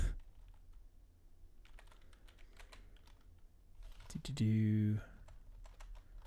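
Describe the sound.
Typing on a computer keyboard: scattered, irregular keystroke clicks. A brief, loud harmonic tone interrupts them near the end, and then the typing resumes.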